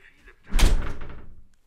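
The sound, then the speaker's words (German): A door swings shut with one heavy thud, a brief rattle and a short fading tail, with quiet near-silence before and after. “Kannst du die Tür bitte zumachen?”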